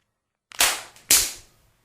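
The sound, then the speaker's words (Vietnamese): Two sharp slaps of hands striking a face, crisp loud cracks about half a second apart, each trailing off quickly, heard alone. “hai bàn tay lại hung hăng tát lên mặt Ân Tịch”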